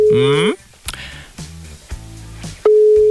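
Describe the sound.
A steady telephone ring tone sounds loudly near the end as someone calls a contest winner, following a short stretch of talk.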